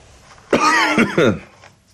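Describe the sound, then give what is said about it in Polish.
A man's harsh, throaty coughing comes in one short fit of a few quick voiced bursts, loud and alone against near silence, then quickly dies away. “Kaszle, ale żyje.”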